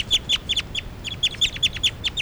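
Recorded bird calls ring out as many sharp, high-pitched chirps in quick bursts, loud and clear over a faint low background hum, with no voices.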